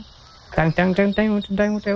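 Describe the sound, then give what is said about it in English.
A green frog calls with a quick run of short, twangy, plucked-sounding notes, each rich in overtones and set in an even pulsing rhythm. The notes are loud and heard alone. “This is what I have for the green frog. There we go.”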